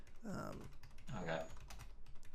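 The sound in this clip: Quiet, quick keystrokes patter on a computer keyboard while someone types into a shared online document. The clicks run in uneven bursts at low volume.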